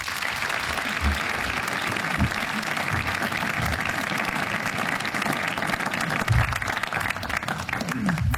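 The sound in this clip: Audience applause welcoming the 2026 Andrew Olley Media Lecturer: sustained, dense clapping from a crowd that holds an even level for about eight seconds.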